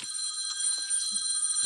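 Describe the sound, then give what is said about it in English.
A mobile phone ringing: a steady, high, electronic warbling tone sustained without a break, fairly faint, with a few soft low knocks underneath and no talking. “1 second, my phone. Bicycle shop duties.”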